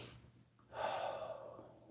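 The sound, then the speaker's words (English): A deep breath drawn in through the nose: a soft, airy hiss that swells after a brief quiet pause and holds steady to the end. It is faint and alone, with no talk. “So real deep inhales. You're focusing on your breath. You're focusing on your nose going in.”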